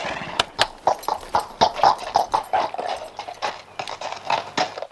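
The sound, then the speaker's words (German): Hooves of a knight's horse as it rides across, a steady run of many clip-clop thuds at moderate volume with no talk. “Na los denn, reite hinüber und mach mir keine Schande.”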